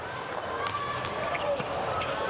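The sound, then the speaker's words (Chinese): A volleyball serve strikes a player's body during a third-set match against Japan, heard as a brief, dull thud set against a steady, bright din of crowd noise that continues throughout. “好发球， 好像是打到曲东帅的身上了，没躲过去。”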